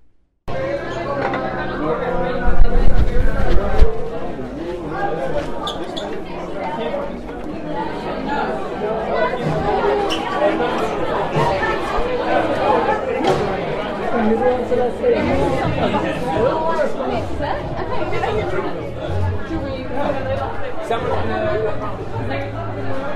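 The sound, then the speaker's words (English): Saturday-night street sounds in Venice: a continuous babble of many overlapping voices talking, with a brief louder burst near the start before the chatter settles at an even level. “Street sounds in Venice, Saturday night.”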